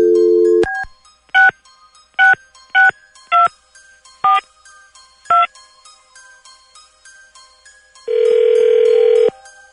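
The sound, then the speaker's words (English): A telephone dial tone gives way to six separate keypad tones as a number is dialled at random, followed by a longer, steady ringing tone. The tones are clean and electronic, with no voices. “let's see what he does here. Dialing at random.”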